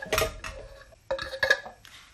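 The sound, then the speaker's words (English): Spoon knocking and scraping against a saucepan as breadcrumbs are added for bread sauce: quiet, light metallic taps and scrapes in two short bursts with a brief gap between them. “Okay, just got a spoon out, so I'm just adding the breadcrumbs to the saucepan now.”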